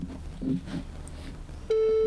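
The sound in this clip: A telephone ringback tone on an outgoing call to a friend begins near the end, a steady, loud, buzzy tone that follows a stretch of low, murmuring background noise.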